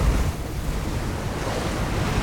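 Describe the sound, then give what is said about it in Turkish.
Waves on a rough sea heard aboard a boat, a continuous loud roar of water and wind with no voices. “Bay Bey, tıraş kıyıya kadar beklese iyi olur. Çok dalgalı.”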